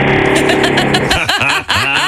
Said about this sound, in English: I think perhaps he was too shy to say I love you too, so he was revving the motor in its place.